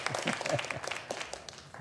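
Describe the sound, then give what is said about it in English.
Applause for a band at a church service, with many separate hand claps rattling out at a modest level and thinning as they fade toward the end. “Wow, thank you, Soul Shine Band. Let's give them another round of applause.”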